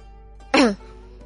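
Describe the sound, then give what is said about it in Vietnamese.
A woman gives a single short, light cough. It is a brief, clear burst with no speech around it. “Công chúa ho nhẹ hai tiếng.”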